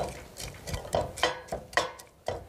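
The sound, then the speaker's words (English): Short scraping strokes from stirring pressed garlic in a heated pan, about six rasping scrapes in an uneven rhythm, fairly faint and with no talk. “So just scrape that off. Give it a bit of a stir around.”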